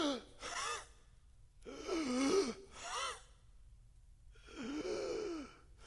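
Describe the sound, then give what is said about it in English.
A voice imitates the gasping breath of a crucified person pushing up against the nails to draw air. Three strained, harsh breaths come in separate bursts with short pauses between them, fairly quiet and without speech. “the only way you can take a breath is to push up against the nails and to pull up against the nails in your hands and to go,”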